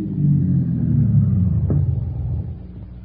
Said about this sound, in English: Well, here's a side road. See if I can find a secluded place. Oh, be careful. Are you telling me how to drive?